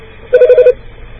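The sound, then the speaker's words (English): Telephone dialing on an old line: a brief, rapid run of a few pulsed electronic tones, clear and alone, lasting under half a second before the line goes quiet. “Dialing right now. Dang, that old screech.”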